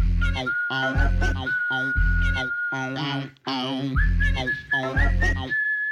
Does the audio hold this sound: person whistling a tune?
yes